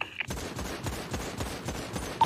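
Gunfire in the video game GTA: many shots crack out in a rapid, fairly even volley over a steady background.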